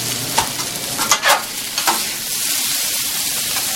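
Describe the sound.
Pepper and onion frying in a pan, with a steady hiss of sizzling and a few scraping stirs in the first half before the sizzle carries on alone.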